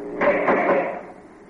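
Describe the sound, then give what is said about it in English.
A prison cell door opening in a penitentiary: one short scraping, grinding rumble that swells quickly, holds for under a second, then fades away into quiet. “guard, open the cell door.”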